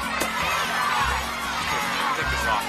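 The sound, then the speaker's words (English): A large crowd of boys in cowboy hats cheers and shouts around a colorful mule-shaped piñata hanging from a tree as they take turns whacking it with a stick, a continuous, loud, excited din of young voices. “A large crowd of boys in cowboy hats surrounds a colorful mule-shaped piñata suspended from a tree. Several boys take turns whacking their piñata with a stick.”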